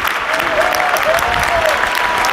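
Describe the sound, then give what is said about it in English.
Crowd applause in a bullring, greeting a horseback rider who holds onto a bull's horn; dense, steady clapping continues at an even loudness throughout. “riding around on horseback whilst holding onto the bull's horn. That's why everyone is clapping.”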